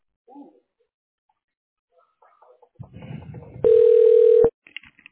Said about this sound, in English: We're dialing right now, okay?